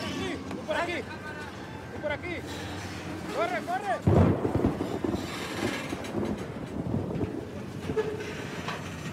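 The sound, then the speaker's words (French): A freight train arrives slowly in southern Mexico as its locomotive passes. Deep rumbling and clanking swell around the middle, with squealing tones early on and voices talking over the noise. “Le train arrive lentement. Laissez passer la locomotive.”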